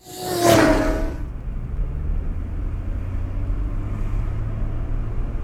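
Car driving with the windows down: a loud rush of air at the start settles into a steady low wind rumble and road noise.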